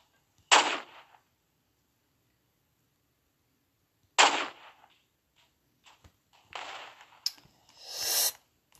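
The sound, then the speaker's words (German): Rocket launcher firing in the video game Roblox: two loud, sharp whooshing blasts several seconds apart, then softer hissing bursts and clicks, with no talk over them. “Ich glaube, das ist gerade im Trend, mit Raketenwerfer zu schießen.”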